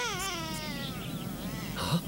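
A baby cries in a wuxia drama scene: a wavering, high-pitched wail that dips in pitch at the start and carries on steadily for about two seconds over low background noise.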